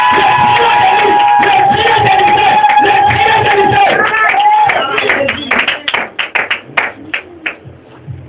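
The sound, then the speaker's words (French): A church audience acclaims Jesus Christ with loud cheering and sustained voices. It then breaks into many sharp, distinct handclaps in an uneven rhythm toward the end. “Est-ce qu'on peut acclamer le Seigneur Jésus-Christ?”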